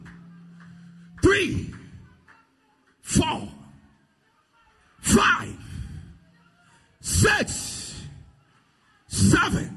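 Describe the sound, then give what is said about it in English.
Five deep breaths in and out during a guided prayer exercise, each a strong, breathy rush spaced about two seconds apart against near silence. “Any heaviness upon your spirit, taking a deep breath 8 times. 1. Out. 2.”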